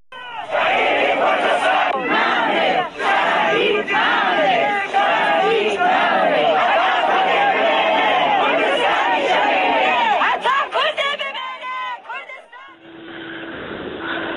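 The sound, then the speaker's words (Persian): Mourners gathered at Aram Habibi's grave chant protest slogans together, a loud and steady mass of voices that carries on almost without a break. Near the end the chanting stops and a different, steadier tone takes over. “بشنویم با هم بخشی از صدای کسانی که بر مزار آرام حبیبی جمع شده بودند و شعار میدادن.”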